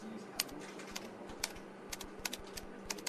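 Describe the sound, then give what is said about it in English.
Fingers type a website address on a computer keyboard, producing a quiet, irregular string of sharp key clicks with short gaps between them over a low, steady background hum. “just type the job website address here”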